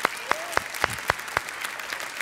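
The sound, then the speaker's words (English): A church audience claps to welcome online viewers of the service. Evenly spaced, sharp claps form a steady rhythm, strongest at first and growing softer toward the end. “would you welcome our online audience tonight? Put your hands together.”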